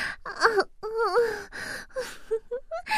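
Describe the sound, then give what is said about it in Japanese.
A person cries in a string of voiced wails and whimpers that waver up and down in pitch, broken by sharp gasping breaths and a few shorter sobs near the end. “あら、とうとう本気で泣いちゃった。”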